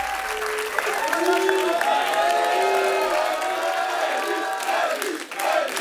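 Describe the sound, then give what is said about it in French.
A live concert audience applauds and cheers as the drummer arrives on stage. Loud, sustained clapping runs throughout, with whoops and shouted cheers riding over it before it eases slightly near the end. “Et oui, c'est l'arrivée du batteur qui est salué par le public.”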